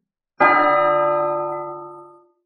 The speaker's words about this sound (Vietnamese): Một tiếng chuông vang lên chấn động thiên hạ. Đó là một tiếng chuông kỳ lạ, từ từ vang vang